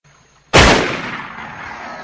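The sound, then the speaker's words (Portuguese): A single gunshot fired at a boat cracks out suddenly and loudly, then trails off in a long, fading rumble. “Vamos atirar e ver se explode.”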